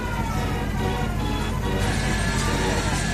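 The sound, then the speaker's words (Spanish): Fairground rides at a summer town fair make a dense, continuous din, with siren-like tones running through a steady wash of mechanical noise and a voice calling over it. “Bueno, este es el sonido de las ferias de verano”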